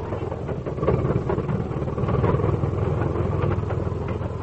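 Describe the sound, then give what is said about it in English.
A car engine in low gear straining to push through a snow drift. It gives a steady, mid-pitched rumbling drone that grows louder early on and holds there, with no voices. “It's like we're heading into another bad drift. Yeah, okay. I'll shift into low and hope we can buck it.”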